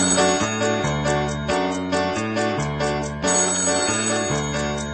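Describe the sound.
A telephone ringing with an electronic melodic ringtone, a short phrase of bright tones repeated over and over at a steady, fairly loud level, with no voices.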